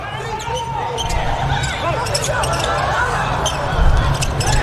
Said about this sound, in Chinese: 辛迪查频发球，二号位。